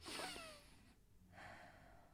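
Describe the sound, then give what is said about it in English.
A deep breath taken during a calm mental health check-in: two long, airy breath sounds separated by a brief silent pause, both faint and soft. “Okay, deep breath.”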